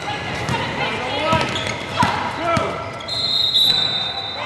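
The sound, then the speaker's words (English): A basketball bounces repeatedly on the floor of a high school gym full of half courts during a 3-on-3 intergenerational tournament, with irregular thumps amid steady voices and crowd chatter. “It's another 2 weeks before girls' basketball tryouts at Winchester High School. But on this Saturday morning, all 8 half courts in the gym are full.”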